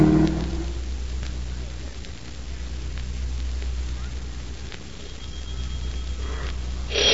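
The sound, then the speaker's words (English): A taxi pulls away in a radio-drama sound effect: a steady, low engine rumble under a broad, hissing wash that holds evenly, swells slightly at the end, and carries no voices. “Taxi. Drive to 5423 North Avenue. Step on it, will you? I want to get there as quick as I can. Now, make it snappy, driver.”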